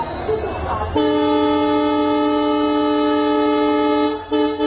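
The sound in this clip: A long, steady train horn blast, heard as someone is about to board a train, holds one loud tone for about three seconds. A voice is heard briefly just before it begins.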